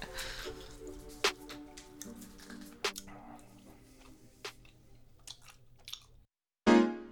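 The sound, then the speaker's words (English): People chewing and eating food: soft, wet chewing and squishing sounds broken by a few crisp crunches and bites, fairly quiet overall, followed by a short silence and a sudden loud burst at the end. “Let's go to an ad, because it's disgusting hearing us eat food.”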